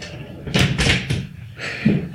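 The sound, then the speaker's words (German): Knocking on a door at a university: a few dull, broad knocks in a loose cluster, then one more after a short pause. “Und dann klopft es doch.”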